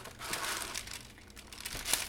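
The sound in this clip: Crinkling and rustling of a fresh roll of gift wrapping paper being handled: continuous papery crackle with a few sharper crunchy bursts, moderately loud, with no talking.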